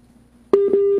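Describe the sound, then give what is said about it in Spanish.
Phone line tone after a dropped call: a steady, mid-pitched electronic beep begins abruptly halfway through and holds to the end, alone over a faint low hum. “Ay, parece que se cayó la llamada.”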